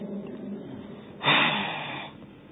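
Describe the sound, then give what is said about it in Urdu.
Breath pushed out from the throat into a hand cupped over the mouth: one muffled, breathy rush that swells suddenly and fades out within about a second, over a low, steady background. “یہی ہاتھ منہ پہ رکھ لیں, اب حلق سے سانس نکالیں”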